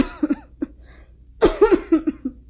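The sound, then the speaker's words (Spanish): Someone with a heavy chest cold coughs in harsh, throaty bursts: two or three near the start, then a short pause and a longer run of several rapid coughs. “¿Qué tienes, mi amor? Has venido tosiendo mucho en los últimos días.”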